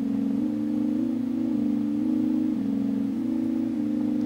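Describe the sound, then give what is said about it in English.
A cheap little DC motor driven by a DAC voltage that changes with incoming MIDI notes gives a steady, loud whine, stepping between slightly different pitches about every half second with short glides between them. “But since it's a physical device that has to ramp up, it's not instant, it's not some super quick stepper motor, it's just a cheap little DC motor”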